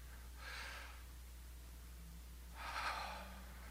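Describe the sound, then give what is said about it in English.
A group takes a deep breath together, a faint airy inhale followed after a pause by a louder, fuller exhale, with a steady low hum underneath. “let's collectively just take, everybody here, just take a deep breath together”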